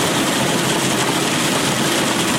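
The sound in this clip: Pistachio-cleaning machines in Kandahar, processing nuts harvested from orchards, run with a loud, steady mechanical drone and hiss that stays unbroken and even from start to finish.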